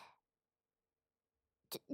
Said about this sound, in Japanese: ちょっと、いきなり咳込んでどうしたんですか？